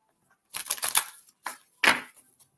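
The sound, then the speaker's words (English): Tarot cards being shuffled and drawn, a few papery rustling bursts of quick riffling, with short pauses between them and no talk. “Lonnie Mae. There's a card for Lonnie Mae. And we'll pull another one.”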